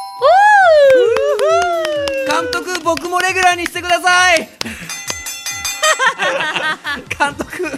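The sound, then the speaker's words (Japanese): A gong-like bell tone rings out loudly to mark the end of a round. Its pitch wavers and falls over about four seconds before it gives way to other, busier sounds. “ゴングが鳴ったので終了です。”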